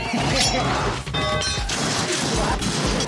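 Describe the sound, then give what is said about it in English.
Glass smashes in a video game: a dense run of crashing, shattering bursts packed closely together, loud throughout, over a busy background of other game sound. “I love breaking glass.”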